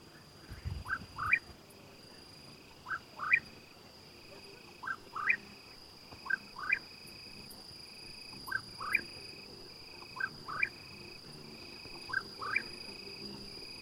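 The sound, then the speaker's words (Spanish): A cucurrí bird singing at night, giving short, rising chirps, often in pairs, repeated at a steady pace over a constant, faint, high-pitched trill of crickets in the background. “cucurrí y es un pájaro que solo canta de noche. Muy al fondo se escuchan algunos grillos que ya empiezan a estridular.”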